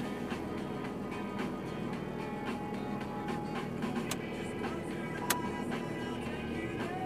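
A car's cold engine rattles as a steady low rumble with faint, irregular ticks and clicks running throughout. No voices are heard.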